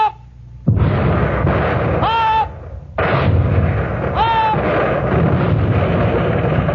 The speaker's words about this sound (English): Every 10 seconds, the guns were ready and loaded, and every 10 seconds, the shells were hurled out of them.